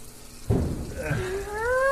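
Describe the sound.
Liquid poured straight from a bottle: a sudden splashing onset, then a gurgling stream whose ringing tone climbs gradually as the pour continues.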